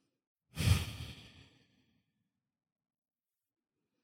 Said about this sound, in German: Atme ein und aus mit all dem, was jetzt gerade ist.